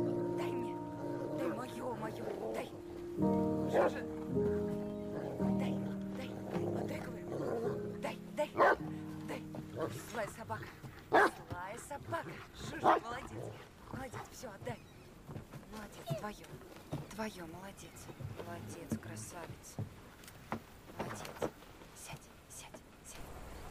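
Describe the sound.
A dog plays behind a door, giving many short barks and yips. Voices talk and whisper over the sounds throughout.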